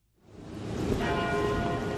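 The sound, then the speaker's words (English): Tower bells at the University of Texas in Austin ring out, fading in from silence to a dense, sustained wash of overlapping bell tones that holds steady at moderate loudness. “Those are the tower bells of the University of Texas in Austin.”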